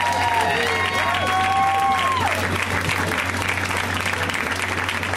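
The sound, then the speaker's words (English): An audience gives loud, sustained applause with some cheering to welcome a comedian on his first time on the show. The clapping is dense and steady throughout. “So let's hear it for Mr. James Davis, guys. Come on! Give it up for him!”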